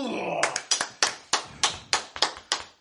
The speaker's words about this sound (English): Stand up and clap for Mr. Freeman,